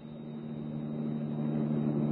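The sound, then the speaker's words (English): A car motor, with an ultraviolet lamp fixed to its hood, hums low and steady as the car pulls out into the street. The droning tone grows slightly louder throughout. “Frank started the motor, and we pulled out into the street.”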